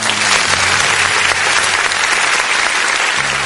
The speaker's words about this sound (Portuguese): Ô produção, aplausos aí para a fiscalização aí que recolheu essas coisas irregulares. Aperta esse botão aí, produção!